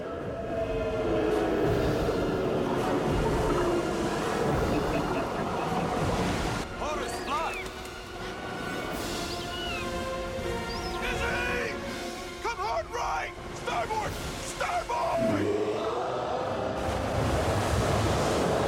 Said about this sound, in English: The power of the water, a lot of detail. It goes from really quiet to really loud. It's a terrific sonic sequence.